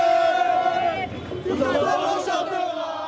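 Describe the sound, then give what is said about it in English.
Crowds celebrate in the streets of Paris after PSG beat Arsenal in the Champions League final, a loud, continuous roar of cheering, chanting and shouting voices. “Also, joy on the streets of Paris. Paris!”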